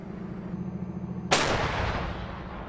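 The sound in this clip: A single heavy gun blast during live firing by an armoured cavalry platoon cuts sharply through a steady low engine-like hum, then fades into a long, loud rumbling decay.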